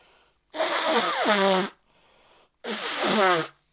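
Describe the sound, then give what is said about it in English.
Two loud nose blows, each a long, harsh honking blast with a wavering nasal pitch that drops partway through the first, separated by a short quiet pause. “I've decided I'm not going to blow my nose on stream anymore because I watched it back the other day.”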